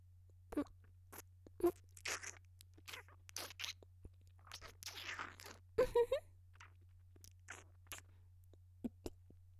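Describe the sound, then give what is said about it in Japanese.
Biting and chewing of peeled sweet fruit: a few sharp, crisp crunches and wet chewing sounds at irregular intervals with quiet gaps between them, over a steady low hum. “むいて、甘い実の部分をいただきまーす。あーん、”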